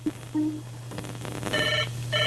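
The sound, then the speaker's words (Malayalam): A telephone rings with an incoming call: a few brief tones, then two short bursts of bright ringing over a steady low hum. “മറ്റൊരു call കൂടിയുണ്ട്, നോക്കാം ആരാണെന്ന്”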